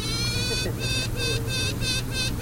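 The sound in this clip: Queen honeybees piping from small wood-and-mesh crates, each queen with a handful of attendant bees, resting on a car's front seat: a series of buzzy, high, tooting pulses, one long note followed by several shorter bursts in a steady pattern.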